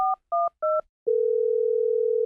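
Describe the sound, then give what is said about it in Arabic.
A telephone receiver is lifted for a call between Stockholm and Iceland: three short, evenly spaced dialing beeps, then a steady, continuous electronic tone that holds to the end. “لقد كانت مكالمة استثنائية بين ستوكهولم وأيسلندا. أمينة سر جائزة نوبل ترفع السماعة لتزف الخبر السعيد للشاعرة الكندية آن كارسون”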